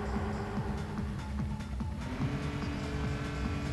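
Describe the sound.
Racing engine drone from the video game Multi Racing Championship: a steady, rough motor whine that holds at an even loudness with brief tonal shifts throughout.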